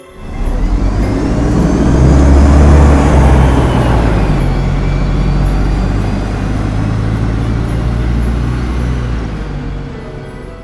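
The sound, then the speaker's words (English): A bus motor accelerates with a loud, groaning low rumble and broad road whir. The sound stays steady and heavy throughout, easing slightly toward the end. “He leaned his head against the window and closed his eyes, as the groan of the accelerating motor drowned out all sound.”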